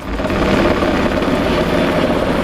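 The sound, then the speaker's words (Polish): Police Black Hawk helicopter fighting a forest fire over marshy woodland, a steady loud rotor and engine roar with a dense low rumble, continuous throughout with no speech. “Policyjny śmigłowiec Black Hawk co kilka minut nabiera wody z pobliskiego zalewu i zrzuca ładunek nad płonącym obszarem.”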